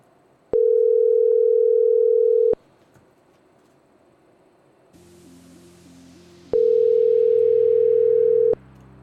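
Telephone ringback tone of an unanswered call: two long, steady mid-pitched tones of about two seconds each, separated by a pause of faint line hiss and a softer warbling tone.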